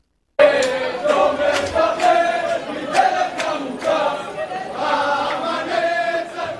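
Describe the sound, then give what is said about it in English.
A jubilant crowd singing and waving flags at Ben Gurion Airport in Tel Aviv as passengers emerge: many voices chanting loudly together with sharp, rhythmic accents running throughout. “These were the jubilant sounds tonight at Ben Gurion Airport in Tel Aviv, people waving flags and singing as passengers emerged safely after a terrifying ordeal aboard a Dubai flight en route to Israel earlier today.”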